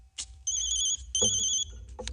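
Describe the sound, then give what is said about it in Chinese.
A telephone ringing with two bursts of a bright, high electronic trilling tone, separated by a short pause. Soft clicks come before and after the rings. “电话。”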